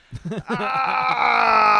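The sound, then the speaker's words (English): A man imitates his own groaning in the bathroom. A few short, wavering vocal bursts lead into a long, sustained, strained groan that stays loud to the end. “I'm surprised you never hear me groan. You ever hear me groaning in there? Dude, I don't hear anything either. Dude, I sometimes I'm in the bathroom fully naked going like this.”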